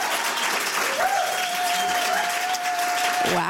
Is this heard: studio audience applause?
yes